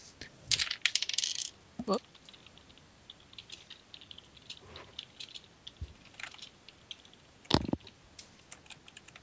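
Seven dice rolled during a tabletop role-playing game clatter and click across a surface in a few scattered bursts, sharp and light with faint rattling between them.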